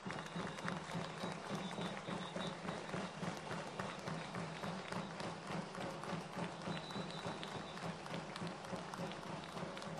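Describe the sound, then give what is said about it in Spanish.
An audience applauds at a commemorative rally, a dense, steady roar of many hands clapping that holds at an even level for the full ten seconds. “Compañeros, fuerte el aplauso.”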